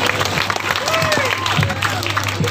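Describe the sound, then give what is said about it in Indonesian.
Applause from students at a school declaration event at SMAN 2 Sidrap, a steady wash of clapping with a voice talking over it. “Iya, oke, big applause.”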